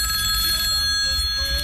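A telephone rings for a radio call-in, a steady, continuous bright ring held loudly through the whole moment over a low background rumble.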